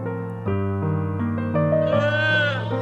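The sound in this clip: A song about a calf from an animal-themed album plays as steady sustained harmonic chords, with a bright wavering melodic line rising over them in the second half.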